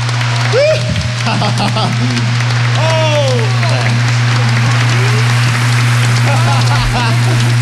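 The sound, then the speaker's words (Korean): Applause from a concert-hall audience after a live group performance, a dense, loud, continuous patter of clapping mixed with whoops and whistles from the crowd. “다시 한번 박수 보내주시기 바랍니다.”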